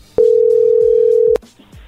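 A telephone dial tone sounds as a number is about to be dialed: a single steady, loud, mid-pitched tone holds for just over a second, then cuts off abruptly, leaving faint low noises.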